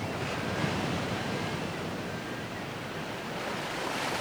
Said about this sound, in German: Rolle deine entsetzlichen Wogen.